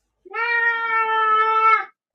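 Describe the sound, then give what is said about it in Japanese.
A cat meows once in a single long, loud, drawn-out call that holds a steady, clear pitch for over a second before cutting off, with nothing else heard around it. “ちょっとやめて、 ね、今ね大事なこと言ってるのに、ね、邪魔するよね、この猫は。”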